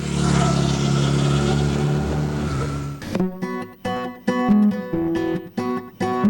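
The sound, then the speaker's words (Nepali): A Hero Xpulse 200 dual-purpose motorcycle with an 18.4 HP engine revs in a loud, dense, steady roar for about three seconds before music takes over. “अफरोड एडभेन्चरमा रमाउनेको पहिलो रुचाइको bike जसमा छ 18.4 HP engine dual purpose tyre र rear monoshock प्रविधि hero XPulse 200”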